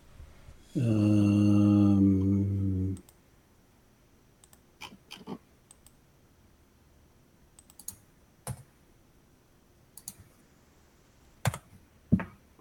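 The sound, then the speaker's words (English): Scattered keystrokes on a computer keyboard as someone types a search: isolated sharp clicks at irregular intervals, preceded by a loud, steady humming tone at the start. “Only Batman stuff comes up when I type this in.”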